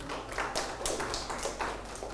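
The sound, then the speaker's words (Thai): Children clap for a classmate who answered correctly during a class lesson. Many irregular, fairly faint claps blend into a steady patter for the whole stretch. “ถูกต้องปรบมือให้เพื่อน”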